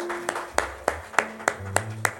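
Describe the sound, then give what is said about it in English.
Congregation clapping hands together during a church service: seven sharp, loud claps in a steady, even rhythm, with low sustained tones underneath. “Let's give the Lord a hand clap of prayer.”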